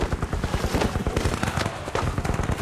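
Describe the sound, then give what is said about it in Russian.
Rapid gunfire rings out in a film fight at a fortress courtyard: many sharp, loud bangs in a fast, steady rhythm that keeps going throughout. “Вайнштейн стреляет, и майор падает назад в комнату.”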